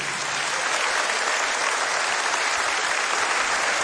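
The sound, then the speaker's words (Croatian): An audience applauds an orchestra with dense, even clapping that stays loud and unbroken throughout, with no voices over it. “aplauz za najbolji orkestar na Istri i Kvarneru”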